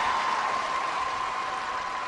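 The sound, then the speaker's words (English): Applause from a crowd, a dense, steady wash of clapping that holds at an even level for about two seconds, with no voices over it. “That was about as serious an applause as anything that I've ever done.”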